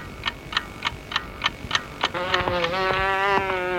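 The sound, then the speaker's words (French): A housefly starts a steady, droning buzz partway through. Before it come seven evenly spaced, clock-like ticks, and faint ticks keep going under the buzz. “Laissez-moi tranquille. Je cherche une mouche.”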